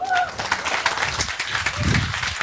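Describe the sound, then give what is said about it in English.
An audience at a talk claps to welcome a speaker on stage: dense, sustained applause that holds loud throughout, with a voice briefly heard over it near the start. “So please give a big hand and welcome Miika Adder on the stage.”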